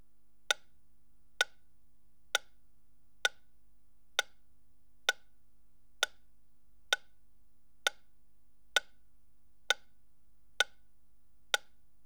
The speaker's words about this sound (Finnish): Metronomin tikityksen pitäisi nyt kuulua vasemmasta etukaiuttimesta.